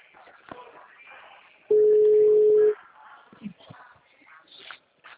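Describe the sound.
A single steady telephone ringing tone while a call is placed, lasting about one second, with quiet rustling and murmured talk before and after it.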